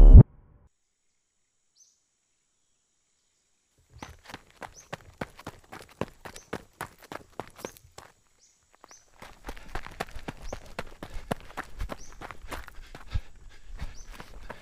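Footsteps running, a series of quick, sharp steps that stop briefly, then resume in a faster, denser run.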